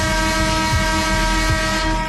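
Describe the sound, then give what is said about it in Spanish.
A horn honks in one long, loud, steady blare that holds an unchanging tone for the whole stretch, with no other sound around it. “¿Te puedo tocar la bocina?”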